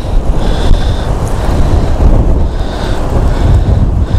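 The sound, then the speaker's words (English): Strong wind blowing across an exposed outdoor spot, a loud, continuous rumbling roar of buffeting gusts with a dense hiss above it, steady throughout and with no talk. “Okay, it's too windy for this out here.”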